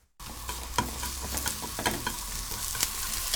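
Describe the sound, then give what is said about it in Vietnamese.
Sliced onions and thinly sliced mushrooms sizzle in vegetable oil in a heated pan, a steady loud crackling hiss broken by scattered clicks and scrapes of stirring. “Đun nóng 2 thìa cà phê dầu thực vật trên chảo. Phi thơm lượng hành đã thái, sau đó đổ nấm đã thái mỏng vào.”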